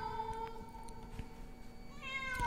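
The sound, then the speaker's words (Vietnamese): A black cat cries mournfully in quiet, drawn-out meows. The plaintive calls are tonal and wavering, and a few repeat across the short stretch with no voices. “một con mèo đen từ đâu nhảy tới trước mặt. Sau đó nó nhìn chằm chằm vào Diệu mà kêu lên những tiếng thê lương.”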